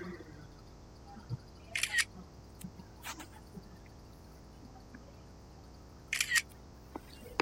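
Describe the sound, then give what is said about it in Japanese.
Two crisp camera shutter clicks from a photo being taken at a temple event, each a short mechanical burst, separated by quiet with a few faint ticks between. “写真撮る。”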